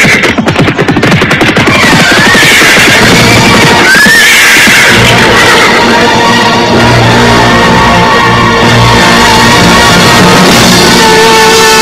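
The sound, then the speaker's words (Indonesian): Dozens of horses gallop in a loud, dense rush of hoofbeats mixed with sharp horse whinnies, the sound staying full and heavy throughout with no pause. “Sebentar kemudian terdengar derap puluhan ekor kuda semakin lama semakin dekat.”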